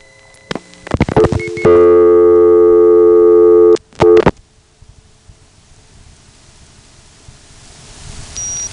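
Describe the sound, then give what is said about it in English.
A telephone tone comes from the TSPS leg of a double connection after it times out and identifies. A few sharp clicks lead into a loud, steady buzzing tone lasting about two seconds, then two more clicks, and a low hiss remains afterward. “There, that tone is from the TSPS leg of the connection, which just identified. And it's actually sitting with a reorder right now”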